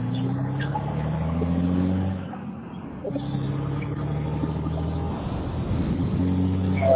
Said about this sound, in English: I'm driving.